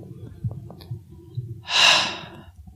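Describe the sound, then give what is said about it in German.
A deep breath taken during a guided relaxation exercise with the shoulders drawn up swells into one broad, airy rush near the middle and then eases away, with only a faint low murmur before it. “Schultern hochziehen, einatmen und ausatmen.”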